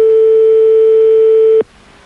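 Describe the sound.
A steady telephone line tone sounds on a call, one unbroken mid-pitched note held for about a second and a half, then cut off abruptly, leaving only faint hiss.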